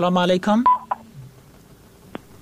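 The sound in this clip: Touch-tone dialing beeps placing a new phone call: a voice talks briefly at the start, then a few short, sharp tones sound one by one over a quiet line.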